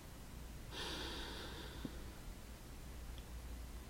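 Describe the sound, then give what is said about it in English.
A single deep inhaled breath taken alone at the start of a breathing exercise: about a second of soft, airy hiss, followed by quiet. “let's take a deep breath.”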